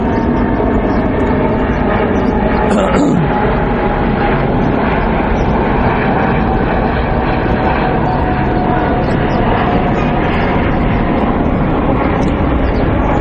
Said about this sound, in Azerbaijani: Bu təyyarə keçsin inşallah.